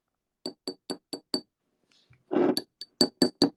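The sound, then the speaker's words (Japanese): Glass sweet chili sauce bottle clinking: a brisk run of five sharp, bright clinks, a short rougher rattle, then several more quick clinks, all without voices. “ビール瓶じゃないよ。スイートチリソースだってんだろ。キンキンキン。スイートチリソースです。”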